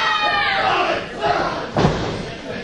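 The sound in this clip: A wrestler lands on the mat from a hip toss during a match, one heavy thud rising out of steady crowd noise.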